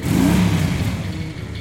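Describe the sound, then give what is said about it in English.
Distant motorcycle engines revving, a low rumbling rev that rises briefly and then settles into a steadier drone, fairly loud and lasting under two seconds. “motorcycle engines revving in the distance.”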